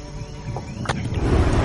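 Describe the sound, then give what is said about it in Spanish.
A buzzing fly in the Pathfinder video game: a steady, low insect drone lasting under two seconds, with no talk over it. “pues voy a primero a la mosca que está aquí, voy a lanzarle un flamear.”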